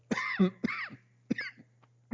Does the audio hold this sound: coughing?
yes